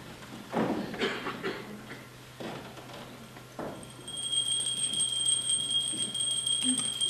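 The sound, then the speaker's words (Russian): A theatre's third bell before a performance rings as a steady, high electric tone. It starts partway through and holds unbroken to the end, after a stretch of quieter scattered rustling and knocks. “Третий звонок. Начинаем.”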